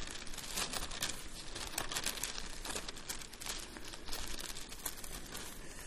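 Thin Bible pages are turned, producing a quiet, continuous crinkly rustle with many small flicks and crackles in an uneven pattern.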